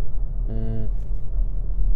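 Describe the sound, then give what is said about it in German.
Steady low road rumble inside a moving car, constant and fairly loud throughout, with a brief tonal sound rising above it near the middle. “ich bin wieder im Auto. Sorry auf alle Fälle wegen den Nebengeräuschen.”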